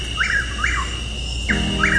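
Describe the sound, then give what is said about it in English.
Chuck-will's-widow calling, a few clear whistled notes in two short groups, standing out over a steady background hiss and low hum. “That's the call of Chuck Will's widow.”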